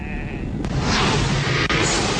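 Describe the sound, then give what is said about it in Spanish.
Sheep bleat in a harsh, noisy chorus over a dense rumble, with a couple of brief sharp clicks breaking through. “Estamos atrapados. De las ovejas. Las ovejas se están rebelando.”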